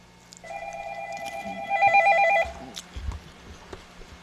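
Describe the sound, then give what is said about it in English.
A telephone rings with an incoming call on a call-in line. A warbling electronic trill lasts about two seconds and swells louder midway over a low steady hum before cutting off. “we got a call on the line. Let's see what we got here.”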